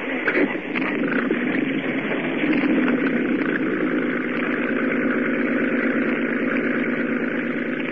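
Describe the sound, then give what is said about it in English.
A boat motor running at a steady idle: a constant droning hum with a throbbing low rumble, loud and unbroken throughout, with no voices. “Start the motor up again.”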